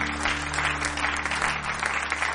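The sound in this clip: A church audience clapping hands during a morning service: steady, dense applause with no clear breaks, over a faint low hum.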